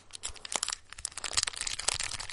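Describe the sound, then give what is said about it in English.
Crinkling and crackling of packs of Score 1991 hockey cards from Dollarama being handled, a continuous papery rustle with many sharp crunchy snaps, fairly loud and with no talking. “Can you hear that? I have hockey cards here, folks. From Dollarama over Christmas, Score 1991.”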